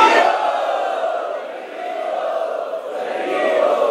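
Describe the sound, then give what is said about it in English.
An audience chants loudly in welcome at a gathering, a dense, sustained wall of massed voices that holds steady, dips briefly in the middle and then swells again. “Let us welcome them by loudly chanting.”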